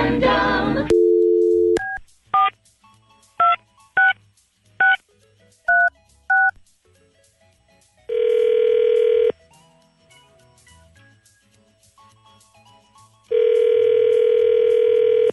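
A telephone dial tone, then a rapid run of about seven touch-tone beeps while a number is dialed. Two long ringback tones follow, separated by a quiet gap.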